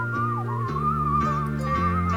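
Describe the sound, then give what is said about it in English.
A person whistles a wavering tune, the clear tone gliding and dipping, over a low, steady backing of sustained notes that change step by step. “It's me whistling, by the way.”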